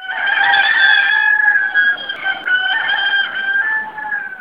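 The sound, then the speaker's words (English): A rooster crows in the UAE, one loud, sustained, strained call after another with barely a pause. The harsh, ringing notes stay steady in pitch and fill the whole stretch, with no voices. “This rooster wakes me up every single morning. It goes on and on, and I can't even tune him out. It's like having an alarm that goes off,”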